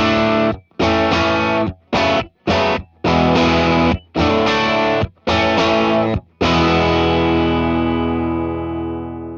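Distorted electric guitar played through an amp cabinet and captured by two microphones, one a 57, placed at the same spot on the cab at equal unity gain: loud chopped chords with short gaps, then a final chord left ringing and slowly fading.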